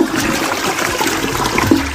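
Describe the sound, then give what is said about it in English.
A toilet flushes with a loud, continuous rushing swirl of water that stays strong for the whole two seconds. “And that running toilet, hundreds of gallons a day.”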